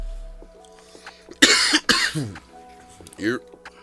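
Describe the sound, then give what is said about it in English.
A person coughs a few harsh, abrupt bursts, the loudest coming early, mixed in with people talking. “That wasn't a Corona cough, by the way.”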